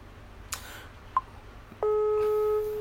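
A telephone call rings out: a couple of brief clicks and a short beep, then a loud, steady ringing tone that holds for about a second.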